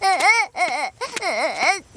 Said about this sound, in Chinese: 孩子怎么哭了？